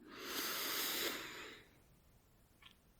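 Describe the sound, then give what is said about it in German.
A deep breath is drawn in through the nose during a relaxation breathing exercise, one long, airy inhale of about a second and a half, followed by near silence. “dann atme dreimal tief ein und aus. Durch die Nase ein”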